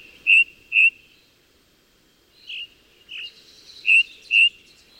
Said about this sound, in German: Allerdings müssen sie schon sehr früh aufstehen, denn die Ringdrossel singt am liebsten richtig knackig früh morgens,